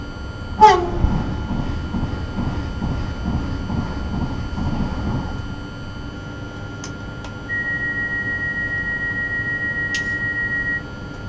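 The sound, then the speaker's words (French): A TGV high-speed train passing an intercity train, heard as a loud rushing roar with a rhythmic pulsing for about five seconds. The roar then drops to a quieter rumble, and a steady high tone sounds near the end. “Ça croisé par un TGV.”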